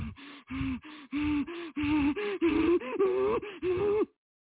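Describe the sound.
A person imitating the heavy, elevated breathing of someone in distress: many loud, voiced, gasping breaths in quick succession, strained and panting, ending abruptly.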